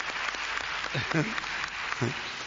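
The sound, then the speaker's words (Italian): Applause from an audience gathered for an evening meeting: a steady, dense wash of clapping runs throughout, with a voice briefly heard above it. “Per questa stavolta voglio fare io un applauso a tutti voi che siete qui riuniti questa sera. Un applauso.”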